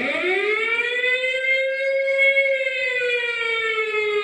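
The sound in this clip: An alarm siren wails in one continuous, loud, sustained tone. It climbs at the start, holds steady, then sags slightly toward the end.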